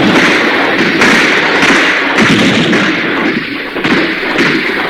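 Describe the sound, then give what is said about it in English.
Artillery fire at Fort Sumter in South Carolina, staged as a battle sound effect: many heavy booms and thuds over a continuous loud rumble. “The battle that finally set the powder keg on fire took place at Fort Sumter in South”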